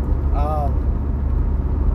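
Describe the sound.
Steady low road rumble from inside a car moving at about 71 mph on a 55 mph highway, a constant drone through the whole stretch with no clear separate pass-by.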